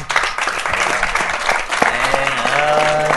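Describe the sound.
Applause from an audience, a dense, steady patter of many hands clapping that holds at an even level through the short stretch without a clear peak or fade.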